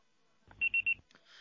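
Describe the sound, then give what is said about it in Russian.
A voicemail system sounds its signal before message recording: three short, identical high-pitched beeps in quick, even succession over a quiet telephone line. “Можете оставить сообщение после сигнала.”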